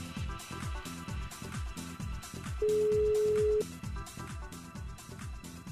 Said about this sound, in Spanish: está sonando. Ahí da el primer tono. ¿Lo cogerá? ¿No lo cogerá?